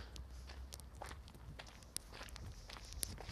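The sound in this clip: Footsteps of a person walking, a steady run of many soft, evenly spaced steps with gritty scuffs, continuing for the full stretch at a moderate pace with no voices.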